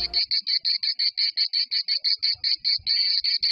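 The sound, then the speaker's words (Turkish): Cicada song from a male cicada, a shrill high-pitched buzz broken into many rapid, evenly spaced pulses, loud and steady throughout with no voices. “Ötüşü doğanın en hoş seslerinden kabul edilen Ağustos böceğinin aynı zamanda dünyanın en güçlü sesine sahip olduğunu biliyor musunuz?”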